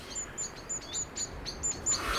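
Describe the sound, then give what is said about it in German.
Blackbird chirps as two blackbirds squabble outside an open window: a quick series of short, high, sharp calls, many in number and fairly faint, with no talk. “Das Fenster ihres Zimmers steht offen. Draußen streiten zwei Amseln.”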